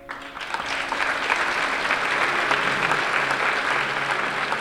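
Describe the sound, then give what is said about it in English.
Audience applause fills the UN's cavernous ECOSOC chamber at the end of a film screening, a dense, steady clapping that holds at an even level throughout. “Audience members show their appreciation for the film as it ends.”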